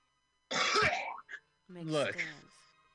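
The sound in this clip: A man hawks harshly and spits on the floor: a rough throat-clearing burst, then a short sharp spit. A strained voice follows.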